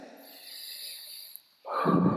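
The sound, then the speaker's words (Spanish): A deep breath: a soft, hissing inhale, a brief near-silent pause, then a louder rushing exhale. “A ver, vamos a respirar.”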